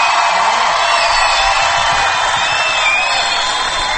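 A concert audience applauding and cheering for a singer, a dense, steady wash of clapping that holds at an even loudness from start to finish.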